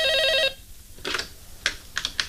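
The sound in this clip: A telephone rings in one bright, warbling burst, then falls silent and gives way to a few sharp clattering clicks, with no voices.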